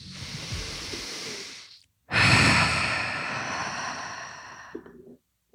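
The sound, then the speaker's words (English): A deep breath: a slow, audible inhale, a brief pause, then a longer, breathy exhale that fades out. It is fairly soft, with no talking. “Should we take a breath?”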